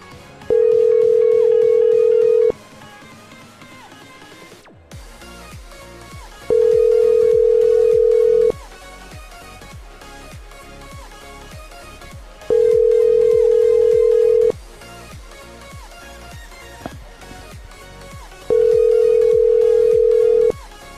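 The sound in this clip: Ringback tone of an outgoing phone call: four steady mid-pitched tones, each about two seconds long with roughly four seconds of silence between them, over a faint regular pulsing underneath.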